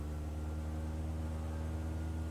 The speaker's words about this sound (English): Set the mouse mode to flight controls, release the parking brake, and press page up to increase the throttle.